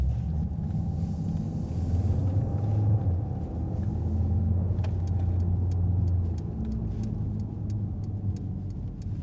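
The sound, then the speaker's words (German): Steady engine and road rumble from inside a car driving into a residential street, low and continuous throughout, with faint rapid clicks in the second half. “Wir fahren jetzt hier in den Bunser oder Bünser Weg rein.”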